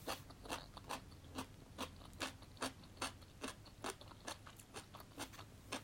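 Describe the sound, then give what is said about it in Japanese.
Crisp crunching as someone bites and chews crispy daikon radish, many sharp, evenly paced crunches repeating in a steady rhythm, quiet and alone with no talk. “ちょっとパリパリ大根から食べよう一発目からパリパリ大根食べるっていうね”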